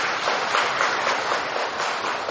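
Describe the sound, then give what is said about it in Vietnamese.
Audience applause at a Buddhist dharma talk: dense, steady clapping fills the whole clip at an even level without a break. “Giỏi, cho tràng pháo tay.”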